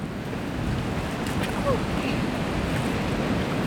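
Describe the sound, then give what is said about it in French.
Sea waves wash onto a beach where people are swimming and surfing, a steady, unbroken roar of surf mixed with wind noise that holds at an even loudness throughout. “Allez, on s'avance vers la mer.”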